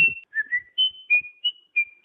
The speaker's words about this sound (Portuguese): Ele tem mania de assobiar, ele fica assoviando tanto até receber proposta pra vender o bico.